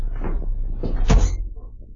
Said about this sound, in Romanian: Oh, dar ce cald e aici. Să deschid puțin ușa.